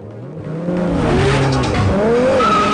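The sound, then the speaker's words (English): Tires squeal as a car speeds off after a group of bikers, the engine revving loudly while the squeals rise and bend in pitch over a steady roar. “Brian, who jumps in his car and goes after the bikers.”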